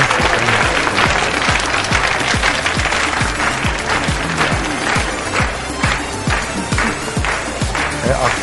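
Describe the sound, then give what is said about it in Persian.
Wedding guests clap in rhythm to welcome the groom, a steady run of claps on a regular beat kept up at an even, lively level throughout. “خیلی خوش اومدین بفرمایید افتخار آقا داماد دست قشنگ بزنید”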